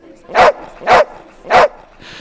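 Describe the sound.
Corgi dogs barking at a corgi-themed café in central London: three loud, evenly spaced barks, each a short sharp burst, with no talk.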